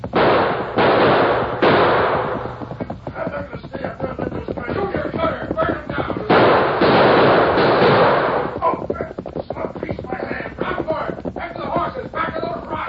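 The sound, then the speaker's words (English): Rifle gunshots ring out during a horseback ambush, with many sharp cracks in rapid, irregular bursts that stay loud throughout amid rumbling noise. “you've been shot. Rifle bullet in shoulder. Knocked me off horse.”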